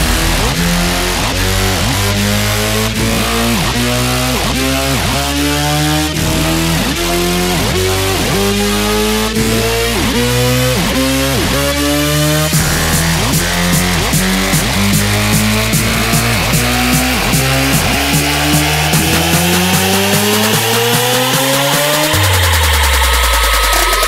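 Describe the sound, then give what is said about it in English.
Race car engines roar loudly and continuously, their pitch repeatedly sweeping upward as they rev, with overlapping engine tones and a falling pitch near the end. “Ladies and gentlemen, start your engines.”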